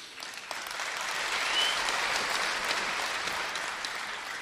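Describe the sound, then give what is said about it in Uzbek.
Audience applause at a live concert, a dense steady wash of many hands clapping that swells slightly and then holds at an even level, with no talk over it. “Qarsaklar joyida bo'lyapti. Bugun haqiqiy muxlis yig'ilganga o'xshaydi.”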